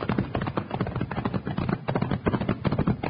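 Hoofbeats of two horses galloping off, a fast, dense, steady drumming of hooves that runs through the whole stretch without a break.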